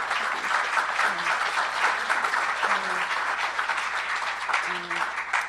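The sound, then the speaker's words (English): A conference audience applauds its sponsors with dense, steady clapping that holds at an even level throughout and tapers slightly at the end. “So a big hand to our conference sponsors.”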